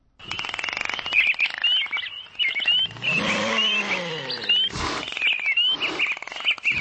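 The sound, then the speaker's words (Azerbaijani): Birds chirp and tweet without a break at the Baku zoo, whose grounds hold many animals, birds and fish. Their high, repeated calls layer over a steady bed of other animal cries and ambience, with no talk. “Bura 170 növdə 1200-dən çox heyvan, quş və balıqların saxlandığı Bakı Heyvanat Parkıdır.”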